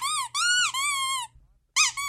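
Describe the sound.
Squeak sound effect: a few high, rubbery, wavering squeaks, loud and alone, the first three in quick succession and one more after a short silence.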